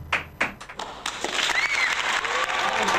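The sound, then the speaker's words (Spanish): Crowd applause after a live folk chacarera performance opens with a few separate claps, then swells into dense, continuous clapping, with a whistle cutting through midway. “Aplausos, aplausos y más aplausos”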